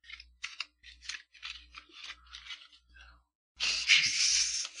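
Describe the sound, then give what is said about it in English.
A deck of playing cards is mixed during a card trick: a run of quick, crisp papery snaps, then a brief pause and a sustained riffling whir. “So then I'm going to mix it up. Okay. I'm going to mix up the cards really,”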